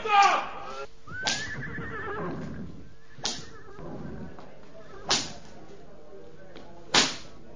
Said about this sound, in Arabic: طب يلا اضربوا الخيول بالكرابيك.